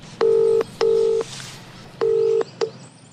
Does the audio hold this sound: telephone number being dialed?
yes